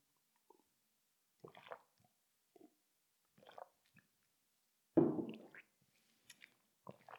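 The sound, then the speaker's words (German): Tea is sipped in a few small, quiet slurps and swallows, with one fuller, louder sip in the middle and soft mouth sounds between long near-silent gaps. “So, dann mal kurz einen Schluck vom Tee trinken.”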